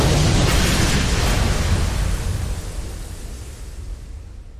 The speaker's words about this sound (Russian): Затем резко крутит крышку, взрыв артефакта.